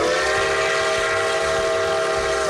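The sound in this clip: A train horn sounds in one long, steady, loud blast with a rich chord of tones, sustained without a break over the low rumble and clatter of the rolling train.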